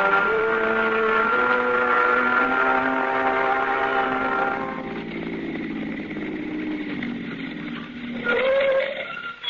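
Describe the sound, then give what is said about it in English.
Car engine droning as a car drives along, a steady tonal hum whose pitch slowly sinks midway through, then briefly rises again near the end, with no voices. “We're driving over that jail.”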